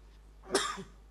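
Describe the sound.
A brief, fairly loud cough from a preacher during a church sermon, one sharp throaty burst with a short rough tail, heard alone with no talk around it.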